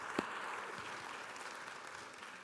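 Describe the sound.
A church audience applauds to welcome a speaker at a service, producing a steady, fairly quiet patter of many hands clapping throughout, with no voices over it.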